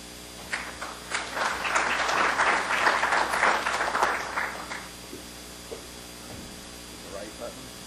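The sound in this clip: Applause from an industry council meeting audience as the president is welcomed to the podium. It swells quickly, holds for a few seconds, then thins out and dies away over a low electrical hum.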